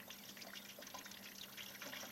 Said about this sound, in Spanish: Ahí viene el agua, ahí viene el agua, ahí viene el agua.